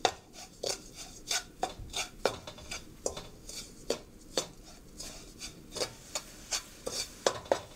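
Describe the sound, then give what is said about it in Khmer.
Sugar being stirred in a pot to dissolve, heard as a quiet, even series of many short rasping scrapes at a brisk, regular pace, with no voices. “កូរវាយើងកូរស្កររបស់យើងឲ្យវារលាយបន្តិច”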